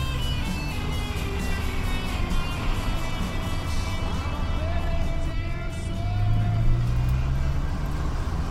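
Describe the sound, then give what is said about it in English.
A car drives through city streets, giving a steady engine and road rumble that runs without a break and swells slightly toward the end. “He smiles as he shakes his head and continues to drive me aimlessly around my city.”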